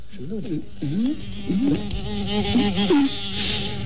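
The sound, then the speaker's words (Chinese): Hornets buzzing around their nest make a steady, droning hum that wavers up and down in pitch throughout, with a hiss of higher buzzing above it. “马蜂窝，走， 别惹他，走。”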